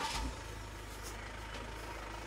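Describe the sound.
The engine of a large 10-metre motorhome pulls away at a seaside campsite, a faint, deep, steady rumble with a soft thump at the start.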